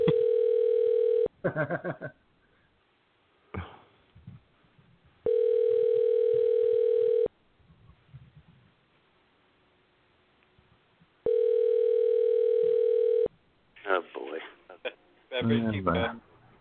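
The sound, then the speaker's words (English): Phone ringback tones sound while a call connects, in three long, steady, buzzing rings. People talk in the gaps between the rings. “A little dialing music”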